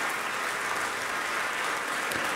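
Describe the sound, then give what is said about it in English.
Dense, steady applause from a concert audience at the Ravinia Festival's Bennett Gordon Hall after a solo piano recital, a continuous wash of many hands clapping with no voices over it. “in Bennett Gordon Hall, again acknowledging the applause of an appreciative audience.”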